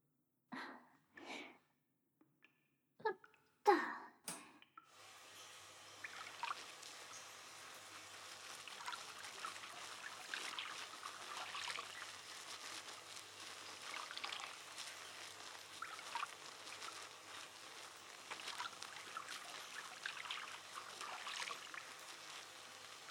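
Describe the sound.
Water runs to rinse shampoo out of hair. A few short breathy bursts come first, then a soft, steady, quiet stream of flowing and splashing water continues to the end.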